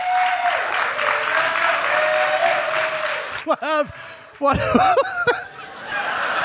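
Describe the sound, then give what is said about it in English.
Audience applause given as a vote, with a little laughter mixed in: a dense, steady clatter of clapping for about three seconds, then a voice talks over quieter crowd noise. “How many people, still using the applause as vote system, how many people are unfamiliar with the Dead Authors Podcast?”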